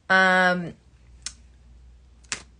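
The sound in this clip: Tarot cards shuffled by hand: two short, crisp papery bursts spaced about a second apart, following a brief voiced sound at the start, with quiet in between.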